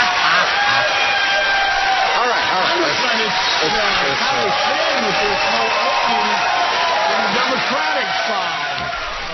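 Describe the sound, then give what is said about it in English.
A standing ovation from an audience, with loud crowd cheering, whooping and clapping that runs steadily and thins slightly at the end. Voices talk over the crowd noise. “Oh, look, they're standing in the audience. Okay. Standing ovation.”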